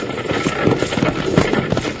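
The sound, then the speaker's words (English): Galloping horses pull a runaway stagecoach, their hoofbeats a rapid, loud, rhythmic pounding over a continuous rumbling roll of wheels. “is that a stagecoach pounding up behind us? No, you're right, partner. It is a stagecoach.”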